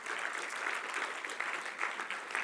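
Audience applause at a gathering as people stand to be recognized: a dense, even patter of many clapping hands lasts throughout at a fairly low level.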